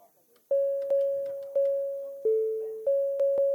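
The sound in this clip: A council chair's bell rings in six quick strikes, each with a bright, sustained tone that decays before the next. The tone dips lower briefly midway, and faint voices come just before the first strike.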